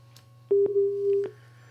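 Busy tone after a phone call is cut off: one steady, mid-pitched electronic tone lasting under a second, over a constant low hum.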